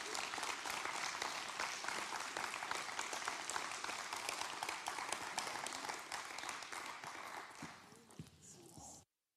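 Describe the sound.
An audience applauds at a Pentecost church service to welcome a pastor, with dense, steady clapping that thins out near the end as a voice comes in.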